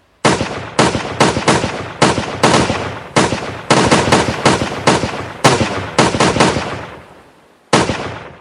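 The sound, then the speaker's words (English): A volley of gunfire from a fusillade: many sharp, loud shots crack in quick, irregular succession, each with a brief decaying tail. The firing thins out toward the end, then one final shot follows a short pause. “Every shot was a headshot, and every bullet a kill. In a single fusillade, the enemy was all but annihilated.”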